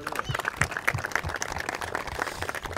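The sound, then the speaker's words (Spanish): Applause for a service team at a gathering: a burst of scattered hand clapping from a group, irregular and moderately loud, with crowd murmur mixed in throughout the short stretch. “a todos ellos quiero pedirle un fuerte aplauso por lo que han logrado.”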